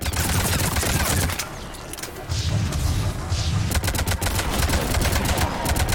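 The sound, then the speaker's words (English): Loud, rapid gunfire in a video game: dense bursts of automatic shots fill the whole stretch, easing briefly near the middle before resuming just as heavily. “Let's shoot at this guy.”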